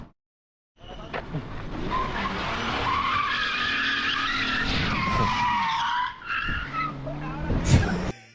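Tires squeal as a car loaded with passengers skids through a street drift, a loud, sustained screech over the engine roar lasting several seconds, dipping briefly before a final harsh burst.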